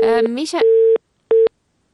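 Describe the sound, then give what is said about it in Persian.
Telephone busy tone after a caller's line drops during a radio call-in program: a steady mid-pitched tone sounds under a brief burst of speech, then continues as two separate beeps with a gap between them. “خب متاسفانه که تماس ما با آقای رفعت قطع شده”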